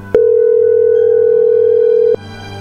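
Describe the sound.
A telephone line tone sounds as a call is placed, one steady mid-pitched tone holding for about two seconds before cutting off abruptly, over a faint low hum.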